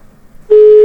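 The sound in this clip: A telephone busy signal after a dropped call: one loud, steady tone starts abruptly halfway through and holds to the end after a quiet stretch.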